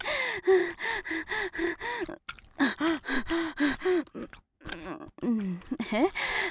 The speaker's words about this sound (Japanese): 呼吸が大事って聞いたから。大きめに息吐いてるの。